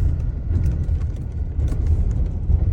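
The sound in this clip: A four-wheel-drive vehicle climbs a rough, steep track with a deep, steady engine rumble. Irregular rattles and knocks from the bumpy ground sound throughout.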